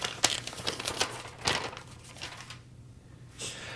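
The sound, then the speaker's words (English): Paper crinkling and tearing as an envelope is ripped open, heard as a few sharp, dry rustling bursts at moderate volume with quieter handling noise between them. “I'm going to open the envelope. Let's do it. Rip it.”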